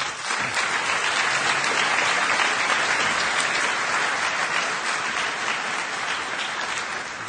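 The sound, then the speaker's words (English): Audience applause welcomes a speaker onto the stage: dense, sustained clapping from a crowd of about 3,000 people that stays loud and even throughout. “And I think I've gone on long enough. Rod, I'd like to welcome you. And let's give Rod a big hand.”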